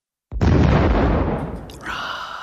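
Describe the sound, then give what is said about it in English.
An explosion effect marks a hit on a destroyer in a Battleship game. It opens with a sudden loud boom, then a broad rumble slowly fades. A higher, thin ringing tone rises over the fading tail near the end. “We've got reports of a direct hit. Ooh, they got me. They've hit our destroyer.”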